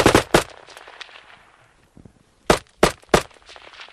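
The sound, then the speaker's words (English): A Kalashnikov AK-74 rifle fires first on automatic, a quick burst of rapid, sharp cracks, then on semi-automatic, three loud single shots spaced apart after a pause. “That's a Kalashnikov AK-74 firing on automatic and semi-automatic.”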